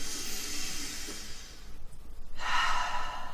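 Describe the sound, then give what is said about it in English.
A deep breath drawn in makes a soft, airy hiss that lasts about a second and a half, then stops for a brief pause before a stronger, breathy rush follows. The whole sound is fairly quiet. “close your eyes for 1 second and take a deep breath in.”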